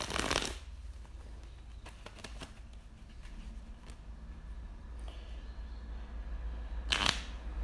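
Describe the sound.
Tarot cards are shuffled, with a quick riffling burst at the start, a few light clicks and taps, and another short riffle near the end. Quiet, with no voices.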